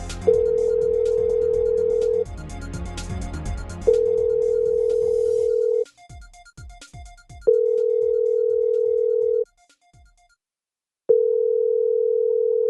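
Ringback tone of an outgoing telephone call: a steady mid-pitched tone sounds in four long pulses with pauses between them. Some background noise lies under the first two pulses.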